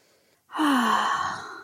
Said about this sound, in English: take a nice big deep breath in and out.